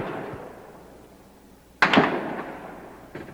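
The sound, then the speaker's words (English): Gunfire cracks during a gun battle as bullets ricochet off the top of a tower: a loud, sharp double crack midway, then a fainter single crack near the end over a soft rumble. “Carton of shells. Ricochet bullets bouncing off the top of the tower.”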